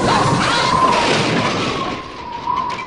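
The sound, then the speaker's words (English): A house of stacked bricks collapses, a sustained rumbling crash of falling masonry that runs loud and dense for almost three seconds, easing slightly toward the end without any voices. “What happened? I built the house of bricks. It wasn't supposed to fall in.”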